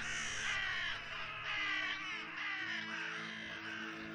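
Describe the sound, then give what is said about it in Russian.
Crows caw throughout, many harsh, raspy calls overlapping in a loud, continuous chorus with no voices. “И вороны. Везде вороны.”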